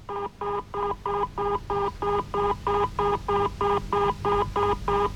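A telephone number is dialed in a long run of short, evenly spaced electronic tone beeps, many in steady rhythm over a quiet hum.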